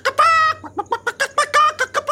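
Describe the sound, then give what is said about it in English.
A human voice imitates a chicken call, the made-up cry of a Moroccan fire chicken: one drawn-out squawk followed by many short, clipped clucking bursts in a quick, uneven rhythm, loud and alone. “Do a bird call or something. Oh, I could do a Moroccan fire chicken.”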